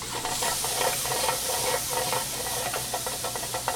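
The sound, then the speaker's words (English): Ginger and chopped fresh garlic sizzling in a hot pan with okra, a soft, steady frying hiss that continues throughout, with no talking. “So we're just getting it nice and hot. We're going to add our ginger and about 2 tablespoons of chopped fresh garlic.”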